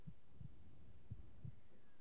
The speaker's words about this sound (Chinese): 我能感受到你的心跳。